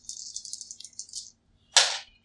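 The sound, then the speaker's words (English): Dice rolled during a tabletop role-playing game: a bright rattling shake lasting just over a second, a short silence, then one sharp clattering burst as the dice land and settle. “Oh my god, why can't I roll for shit today? All right, so I rolled 4”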